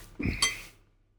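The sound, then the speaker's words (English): A utensil stirs a wet mixture containing Red Bull in a bowl, a soft scrape followed by a single clear clink against the bowl that fades quickly. “Right, so I'm just mixing some more, right? Yep, you want to mix it, so presumably now it's a lot wetter.”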